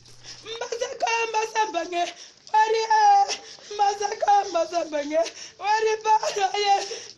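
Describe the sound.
A 62-year-old woman crying, with several long wailing bursts of high, wavering voiced sobs separated by short breaths.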